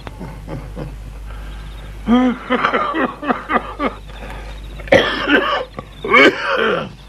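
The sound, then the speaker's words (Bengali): Harsh coughing from someone whose cough worsens with the cold, mixed with throaty clearing: several rough, voiced bursts come close together, then a few louder, sharper coughs follow after a brief pause. “একটু ঠান্ডাটার চাপ পড়লেই হাওয়ার কাশিটা বাড়ে।”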